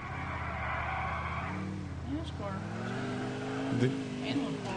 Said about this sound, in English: Is the driving hard? Yeah, not all the cars handle that great no. in this game.